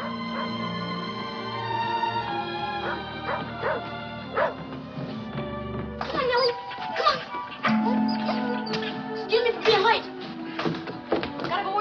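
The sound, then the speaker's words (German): A dog arriving home with its young owner barks and yips in many short, sharp bursts, coming in quick clusters through the second half, with people talking. “Ihr Sohn Ted kommt mit seinem Hund nach Hause.”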